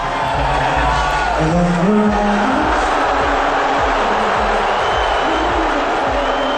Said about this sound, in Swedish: Trump själv gjorde militärhonör, log och såg ut att ta buropen med ro.